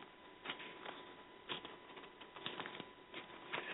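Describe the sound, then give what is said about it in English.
Pages of a Bible being turned in Deuteronomy give faint, soft papery rustles and flicks, a series of brief crisp bursts with no voices. “I'm in the book of Deuteronomy, turning the pages and looking where he tells us”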